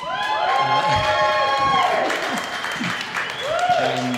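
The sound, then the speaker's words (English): A live audience applauds and cheers at a band's first performance before a crowd: dense, steady clapping runs throughout, with whoops and shouting voices rising above it. “Thank you very much to our first ever live performance to an audience.”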